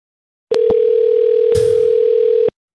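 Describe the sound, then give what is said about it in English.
A steady telephone dial tone for a call back, lasting about two seconds, with a few sharp clicks near its start and middle before it cuts off. “You called Perfect Person and I'm here to call you back.”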